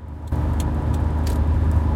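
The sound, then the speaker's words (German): A car drives along the A9 autobahn, its loud, even road and engine roar starting abruptly after a brief quieter moment and then holding steady. “So, wir wechseln jetzt gerade bei einem Autobahn. Na, wir fahren weiter auf der A9.”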